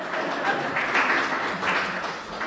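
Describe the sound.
Audience applause during a speech: a muffled, continuous wash of clapping at moderate level, with slight swells, lasting a couple of seconds without speech.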